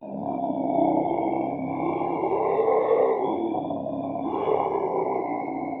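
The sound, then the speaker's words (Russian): A sinister, howling roar of demons, a sustained deep growling roar with a steady tonal howl above it, loud and unbroken, swelling a few times, with no talk. “Вдруг раздался зловещий, воющий рев.”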